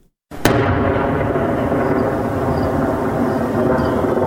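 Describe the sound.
A single sharp blast from an artillery cannon supporting Afghan forces near Lashkar Gah cuts through silence, followed by a long, loud, steady rumbling roar with faint whining tones over it.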